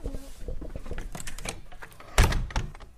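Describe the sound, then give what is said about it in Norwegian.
A window is opened with rattling, scraping clicks of the frame followed by a firm thunk near the end, moderately loud over a steady background hiss. “Nå må vi åpne vinduet, det er så varmt.”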